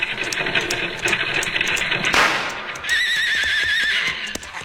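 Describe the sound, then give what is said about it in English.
A single rifle gunshot fired from behind rocks at a lumber wagon's driver: one sharp, loud crack near the middle, set in steady background noise, with high wavering horse whinnies following it. “Nice shooting”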